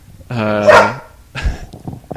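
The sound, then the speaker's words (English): A dog barks once, a loud drawn-out harmonic bark, followed by a few fainter, rougher sounds. “sorry, that was my dog.”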